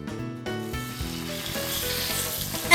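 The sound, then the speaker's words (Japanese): Takoyaki and grilled squid sizzle on a food stall griddle in a bright, steady hiss, heard together with music that has sustained tonal notes. “らっしゃいらっしゃい。おいしいたこ焼きいかがっすか。香ばしいイカ焼きもあるよ。”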